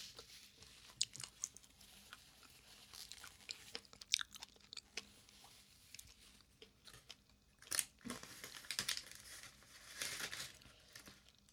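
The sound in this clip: Someone chews chicken nuggets and a chicken drumstick, making faint, irregular soft crunches, crinkles and moist smacking bites over several seconds, alone without talk.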